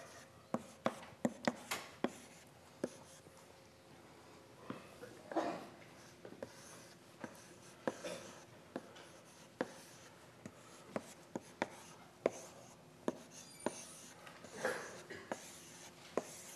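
Numbers are written onto a line drawing during a lecture on interpreting line drawings: many faint, sharp taps and short scratches at irregular intervals, with no talk.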